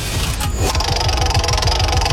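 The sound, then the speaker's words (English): A prize wheel is spun during a game, giving rapid, steady, loud ticking from its clicker. The ticking follows a brief noisy swish at the start. “shall we bring out the wheel and give it a spin?”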